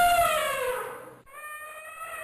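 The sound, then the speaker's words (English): Elephant call: a loud, harmonic-rich trumpeting tone that slides downward in pitch, breaks off briefly, then gives way to a steadier, thinner tonal call. “No, it is elephant. Yes, it's an elephant.”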